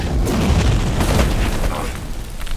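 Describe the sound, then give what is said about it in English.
A building explodes in a loud, sustained blast with a deep, continuous roaring rumble that holds steady throughout and eases only slightly toward the end. “And the building explodes”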